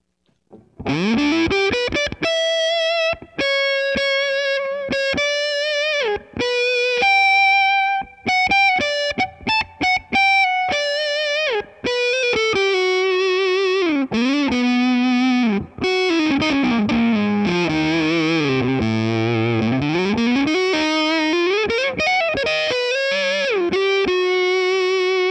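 Electric guitar played through a Boss Waza-Craft limited edition Tone Bender fuzz pedal with the tone rolled off: loud, thick, sustained distorted notes in a continuous melodic line, including a long slide down and back up.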